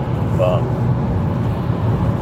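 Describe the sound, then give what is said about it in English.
Car driving, heard from inside the cabin: a steady, unbroken low rumble of engine and road noise that holds at an even level throughout. “I'm on a drive, so I got some time.”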